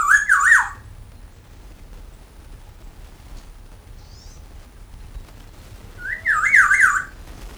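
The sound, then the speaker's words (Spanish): Oriental greenfinch singing in Cave Valley on a December morning: two short, bright trilled song phrases, one at the start and one near the end, over a low rumbling background. “Está el Cardale Chinensis aquí cantando.”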